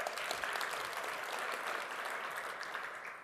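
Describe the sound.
Audience clapping during a comedic talk, faint but continuous, with a crisp, even texture that tapers slightly toward the end.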